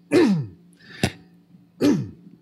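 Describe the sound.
A person clears their throat with a protein bar stuck in it, making three harsh bursts: a long rasping one, a short sharp catch, then another rasping clear, each separated by quiet.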